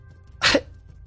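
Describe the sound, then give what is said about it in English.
A small winged creature gives a single short, breathy cough, a sharp burst that stands alone against a quiet background. “Little one approaches you. Coughs.”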